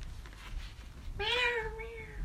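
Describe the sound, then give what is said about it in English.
A female cat meows once, a single loud, drawn-out meow that rises slightly and then holds steady, following a quiet stretch with no talk. “The cat is back.”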